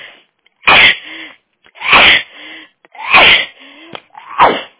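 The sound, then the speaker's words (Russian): A woman sneezes four times in a row, with sharp, loud bursts spaced evenly about a second apart. There is no talk between them. “По-моему, отчихалась.”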